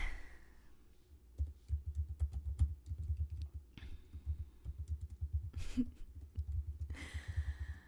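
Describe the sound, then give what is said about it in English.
Soft typing on a computer keyboard: many quiet, irregular key clicks in quick runs over a faint low hum, with no talking. “I can't really type one-handed, can I? I know, I love playing with your hair, but I can't type with one hand.”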